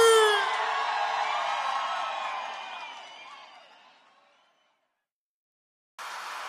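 A live audience in São Paulo cheers and shouts, loud at first, then gradually dying away into silence before another sound starts abruptly near the end.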